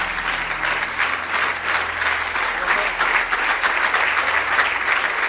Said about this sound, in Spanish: Dele un aplauso fuerte de alabanza al Señor.